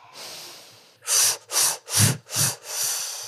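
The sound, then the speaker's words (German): Forceful breaths pushed out through the mouth in imitation of a locomotive: a soft hiss, then four short loud puffs in a quick chugging rhythm and a longer final exhale. “Durch den Mund, ja? Ja. Und wenn ihr das nächste Mal einatmet, dann wie eine Lokomotive ausatmen.”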